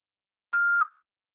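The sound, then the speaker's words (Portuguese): An answering machine beep sounds before a message is recorded: one short, steady electronic tone of mid-high pitch, lasting about a third of a second with a brief tail, heard alone. “Após o sinal, fale seu nome e deixe seu recado.”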